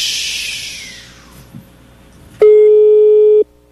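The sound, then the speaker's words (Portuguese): A single telephone ring heard during a call, a steady, loud, mid-pitched buzzing tone lasting about a second, preceded by a stretch of faint hiss. “pelo toque é um bom telefone”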